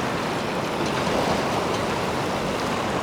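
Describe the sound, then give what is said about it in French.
Waves of a rising tide rush in as a broad, steady wash of water noise, even in loudness with only slight swells and no voices. “Voici donc la marée montante.”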